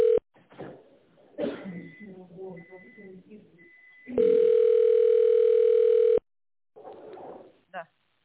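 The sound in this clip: A telephone ringing tone plays while a call is put through to the tender department: one steady, loud, continuous tone lasting about two seconds, with people talking before and after it.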